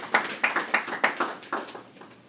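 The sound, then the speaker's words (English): Applause welcoming speakers at a poetry discussion group, heard as a run of distinct claps at a fairly steady rhythm that slowly fade in strength. “they might even do this again. So it's a, let's give them a big hand. Yay, welcome.”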